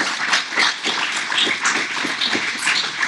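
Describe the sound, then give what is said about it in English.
An audience applauds a show guest with dense, steady clapping that carries through the whole stretch without a break. “Thank you, Clyde, for coming on the show, and thank the audience for being here. Give yourself a big hand. Give Clyde a big hand here.”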